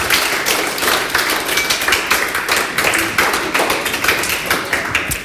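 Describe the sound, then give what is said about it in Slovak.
Audience applause at an award ceremony as a prize is handed over. Many distinct claps rise and dip in loudness over several seconds. “Takže ďakujeme krásnejšie. Veľký aplauz, tak,”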